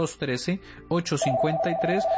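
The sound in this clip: Telephone ringing with an incoming call: a steady electronic ring tone begins partway through and holds under a voice that keeps talking.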